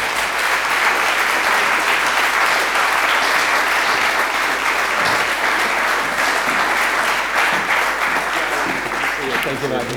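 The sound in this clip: Applause at an awards night welcoming the presenter of the Male Announcer of the Year award: dense, steady clapping from a large audience that holds at a constant level throughout.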